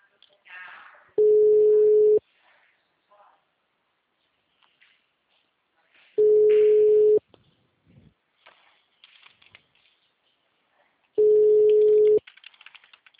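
A telephone busy signal sounds as three long, steady single-pitch tones of about a second each. They are evenly spaced by several seconds of near quiet with faint scattered noises.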